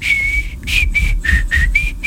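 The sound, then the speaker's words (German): A person whistling a cheerful tune to start a Monday: clear, fairly high, pure notes, about six in a row, the first held longest and the rest shorter with slight shifts in pitch, loud and alone. “so pfeifen wir uns rein in diesen Montag.”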